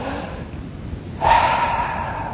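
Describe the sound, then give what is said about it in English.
A single deep breath taken during a meditation. A fairly loud, breathy rush of air starts abruptly and holds steady, with no talking over it. “For me personally, I find all I really have to do is just take a deep breath.”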